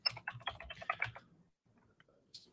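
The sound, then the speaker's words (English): Faint typing on a computer keyboard produces a quick, irregular run of many soft key clicks. The clicks trail off into near silence, then one more light tap sounds near the end. “Got to type it in here.”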